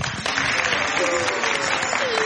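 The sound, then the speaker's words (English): Audience applause for children at a Hindu devotional gathering: dense, steady clapping that starts after a brief pause and stays loud, with faint crowd sound mixed in. “All, a big round of applause for the kids.”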